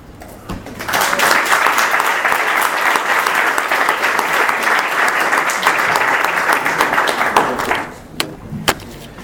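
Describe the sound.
Audience applause at a talk in a university faculty of economic sciences: dense, steady clapping that holds for several seconds, then thins and fades, leaving a few scattered claps at the end.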